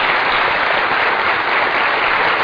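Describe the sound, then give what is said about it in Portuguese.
An auditorium audience applauds a guest's entrance with steady, dense clapping that stays loud and even from start to finish, with no voices. “Por que que vocês não deram uma salva de palmas para a entrada dele aí?”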